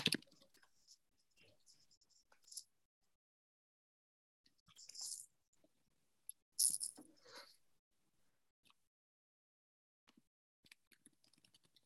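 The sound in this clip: Typing a message on a keyboard gives scattered, soft clicks and taps in irregular clusters, separated by silent gaps.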